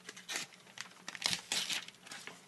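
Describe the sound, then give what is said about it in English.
An envelope is ripped open by hand: quiet paper crinkling and tearing in a few short, irregular bursts, with sharper rips near the middle. “Let me get to it. Got to rip it open.”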